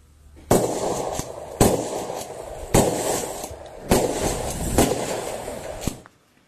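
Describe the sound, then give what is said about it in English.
Shotgun blasts from a video of an effigy being shot: five loud, sharp reports at fairly even intervals, each trailing into a decaying rumble before the next. “a video which is making news this evening, which shows an effigy of Gun Control Australia's Sam Lee, a woman, being blasted with a shotgun.”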